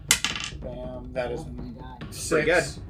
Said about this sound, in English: Okay, and now roll the cold damage. And then cold damage. 2d6. 2d6. I'll just roll it twice.